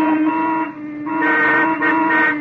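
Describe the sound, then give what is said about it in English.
Car horns honking in heavy traffic: overlapping, sustained blaring tones that hold steady, dip briefly, then swell again louder toward the end. “What's everybody honking for?”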